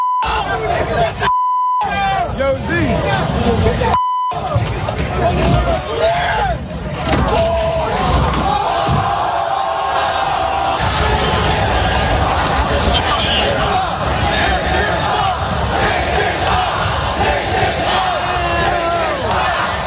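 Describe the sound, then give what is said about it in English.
Crowd roaring and shouting in city streets during a rowdy New York City championship celebration turned riot, a dense, loud, continuous din of voices, with two short bleep tones cutting in early on. “buses were torched, rioting in the streets, fighting galore.”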